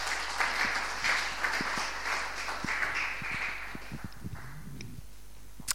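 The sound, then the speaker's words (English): Applause from a gathered audience welcomes a speaker to the front at a morning church meeting, many hands clapping in a dense, steady patter that thins and fades toward the end. “Can we put our hands together and just welcome Alice?”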